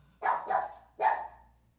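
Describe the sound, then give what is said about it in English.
A dog barks three times: two quick barks close together, then a third after a short pause. The barks are sharp and moderately loud, each trailing off briefly, with no voices over them. “Is he barking at Mango?”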